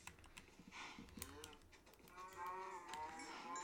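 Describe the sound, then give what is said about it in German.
Cows mooing in a video game on a farm, a few low moos mixed with busy clicking and keyboard typing. “Ich töte noch ein paar Kühe.”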